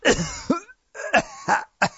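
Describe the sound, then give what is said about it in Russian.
A consumptive coughing fit, apparently acted out by a human voice, made of several rough, hacking coughs with throaty, voiced tails. They come in uneven bursts separated by brief gaps. “тут же согнулся за стрясаемым очередным приступом чахоточного кашля”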